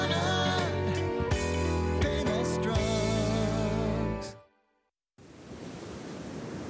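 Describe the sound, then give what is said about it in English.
Ocean waves wash onto a white sugar-sand beach in Pensacola as a broad, steady roar of surf that comes in after music fades into a brief silence. “Picture yourself here. White sugar sand beach, clear blue-green water. This is Pensacola.”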